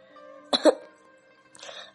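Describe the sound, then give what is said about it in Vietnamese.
A person coughs once, a short harsh burst with two quick peaks, followed a moment later by a fainter breathy rasp. “Sau một lúc lâu, Diệp Kết Mạng dần ho.”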